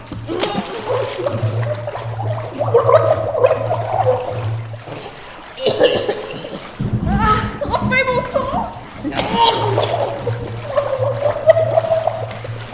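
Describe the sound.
Gurgling and bubbling water as a woman's head is held under water, with splashing and muffled, choked vocal sounds coming in uneven bursts, and other voices heard intermittently.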